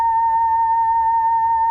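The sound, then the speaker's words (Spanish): A steady electronic tone made by a photodiode box that turns sunlight into sound: one constant, clear pitch that holds loud and unwavering throughout, with no voices. “Lo que acaban de escuchar es la luz del sol.”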